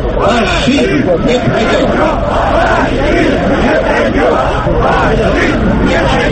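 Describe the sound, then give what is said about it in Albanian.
A protest crowd in Pushkin Square, Moscow, raising antifascist slogans: a loud, dense mass of many voices shouting together, sustained without a break. “Tubimi u zhvillua në sheshin Pushkin, ndërsa protestuesit brohoritnin parulla antifashiste.”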